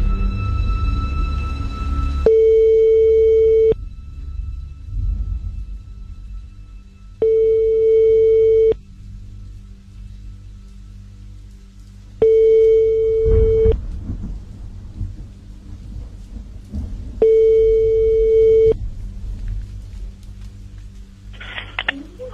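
Ringback tone of an outgoing telephone call: four long, steady, mid-pitched tones of equal length, evenly spaced and separated by longer gaps, over a low background rumble. The line falls quiet after the last ring.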